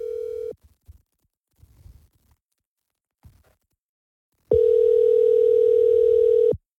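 An outgoing telephone call ringing through a handset, a steady flat electronic tone: the end of one ring at the start, soft handling rustles in the gap, then one long unbroken ring of about two seconds.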